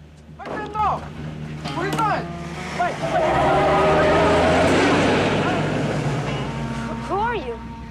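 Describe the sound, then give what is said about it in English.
A car engine roars as the vehicle speeds off, the noise swelling to a sustained loud rush in the middle. People talk before and after the surge. “Start Storm commandeers the vehicle and speeds off.”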